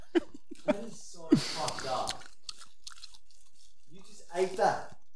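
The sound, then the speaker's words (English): Someone chews and crunches on a tarantula, with a few sharp crunches and wet chewing between quiet pauses and brief faint voice sounds. “You just ate that. What's it taste like? Like delicious, to be honest. Not bad at all. Oh, it's a tarantula.”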